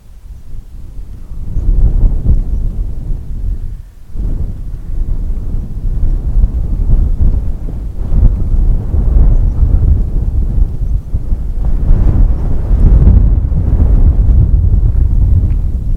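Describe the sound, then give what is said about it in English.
Wind blows outdoors in quiet grazing land with sheep: loud, continuous low buffeting and rumble against the microphone, swelling and easing slightly, with one brief dip near the start. “There's some water flowing over there. There's the wind, some birds twittering over here.”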